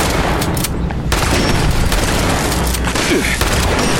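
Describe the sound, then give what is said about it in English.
Gunfire and explosive blasts from small floating robot enemies in a video game, a dense, loud, continuous barrage of booms and rapid shots with no break across the whole clip. “Danger, danger. Those little iBots floating around shooting at me.”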